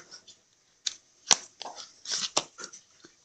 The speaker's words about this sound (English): Hold on. I'll just pull the card out.